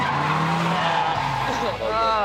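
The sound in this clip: Tires squeal as a car skids under clutch and handbrake, a loud sustained screech over engine noise, its pitch wavering in rapid bends toward the end.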